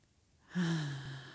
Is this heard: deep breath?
yes